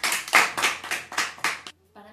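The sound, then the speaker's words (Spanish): Audience at a feminist comedy show clapping in unison: a quick run of even, rhythmic claps that stops abruptly, followed by a brief pause and then a voice beginning to speak. “Te pido un aplauso para este momento.”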